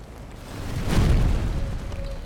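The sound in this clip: A lorry catching fire explodes in a deep boom that swells about a second in, then settles into a sustained low rumble that slowly fades.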